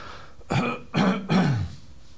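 Someone clears a throat made dry by dehumidified air: three rough, guttural bursts in quick succession, fairly loud and heard alone without speech.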